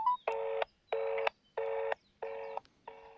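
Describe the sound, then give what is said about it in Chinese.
Mobile phone dialing tones from a call being placed, a tone at the start and then evenly spaced steady electronic beeps, four full bursts and a fifth cut off, played alone without talk. “稍等，我手机正在拨通。”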